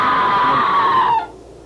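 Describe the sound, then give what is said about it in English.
A long, loud, high scream rings out in an old manor house. It holds steadily for about a second, sinking slightly in pitch, then cuts off abruptly. “Not the wind playing tricks. It was a scream, wasn't it?”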